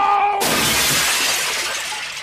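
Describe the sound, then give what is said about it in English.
Glass shattering as a cabinet holding gold models is struck with a phaser rifle: one sudden loud crash of breaking glass, then a bright spray of tinkling shards that slowly dies away. “He smashes a cabinet containing gold models of the Enterprise with his phaser rifle”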